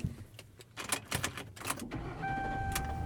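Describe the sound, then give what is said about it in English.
Car being driven home after a school drop-off: a faint, steady low rumble with scattered clicks and rustles, and a thin steady tone joining in the latter part. “And I am driving home.”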